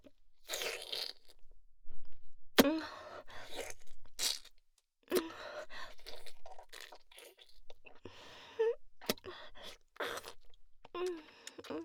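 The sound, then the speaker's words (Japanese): Crunchy bites and chewing of food come in short, sharp bursts separated by near-silent pauses, each crisp crunch followed by softer mastication. “食べちゃおうっと。”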